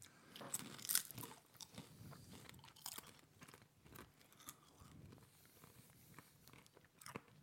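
Crunching and chewing of a cheesy crisp snack: faint, irregular crisp bites and grinding with no talk.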